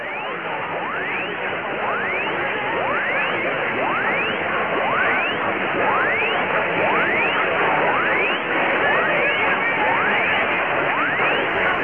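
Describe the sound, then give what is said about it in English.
Test sweep tones from an AM radio station transmitter in Charleston, South Carolina, received through noise: rising sweeps repeat about once a second, many in a row, over a steady bed of static hiss. “Now, listen carefully, and you can hear the sweep tone from WSPO in this recording.”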